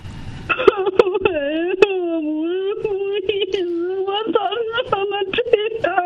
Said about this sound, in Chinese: 没事啊，没事，先别哭啊